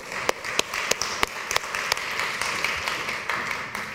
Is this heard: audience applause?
yes